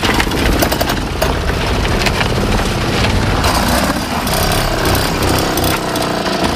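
A Solex moped engine runs with a rapid, buzzing clatter, loud and steady throughout, with no voices over it.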